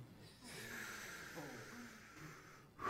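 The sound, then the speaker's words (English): A deep breath taken by a preacher during a sermon: one long, airy rush of air lasting about two seconds, fairly steady in loudness, with another louder sound starting right after it. “Just take a breath. That was really for me, not so much for you.”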